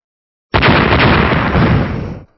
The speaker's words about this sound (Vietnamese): Những tiếng nổ lớn vang lên liên tiếp